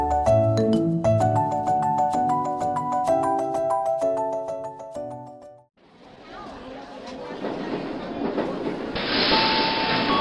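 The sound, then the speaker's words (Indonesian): A passenger train runs on rails on a journey from Yogyakarta to Jakarta, after a short passage of tonal music. The train gives a steady, loud rumbling rush that grows brighter and more hissing toward the end. “saatnya mereka kembali pulang ke Jakarta dengan naik kereta api.”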